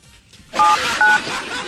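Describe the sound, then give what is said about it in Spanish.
Telephone keypad dialing tones: three short, steady electronic beeps sound over a loud, noisy hiss in the background. “pero yo le voy a marcar y vea para que suene”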